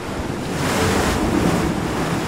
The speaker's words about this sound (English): It's a place between two worlds, half land, half liquid, battered by the waves